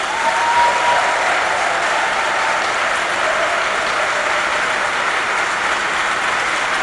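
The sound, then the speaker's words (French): A church audience applauds its nuns with a dense, loud and sustained wash of clapping that stays steady throughout. “Alors acclamons nos religieuses.”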